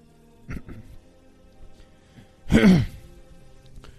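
A person with phlegm, troubled by the weather, clears their throat in one loud, rasping burst. A couple of faint short sounds come before it.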